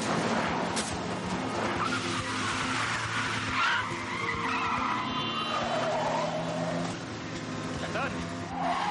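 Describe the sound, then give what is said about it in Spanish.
Tires skid and an engine roars as a car is forced off the road and spun around, blocking another vehicle in an action film chase. A sustained squeal with whining streaks rides over a dense, loud rumble. “Naya lo saca de la carretera y lo obliga a girar obstaculizando a otro vehículo.”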